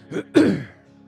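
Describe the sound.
A man clears his throat while preaching a sermon: a short, soft rasp followed by a louder, longer, gravelly clearing that trails off into quiet.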